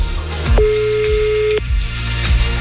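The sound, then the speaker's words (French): An outgoing phone call sounds one steady ringback tone, about a second long, over a low rhythmic backing of repeated deep descending swoops. “Ça sonne. J'espère que la personne va décrocher.”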